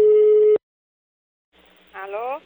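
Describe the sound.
A telephone tone on an outgoing call: one steady, clear tone of about half a second, then silence, then faint line noise and a brief voice.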